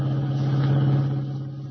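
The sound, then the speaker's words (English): A car engine drones at a steady low pitch while the car is driving, the rumble easing slightly toward the end. “Kent and White dashed out, and as we join them now, they are driving the revived but still weak Jim Olsen back to the Daily Planet.”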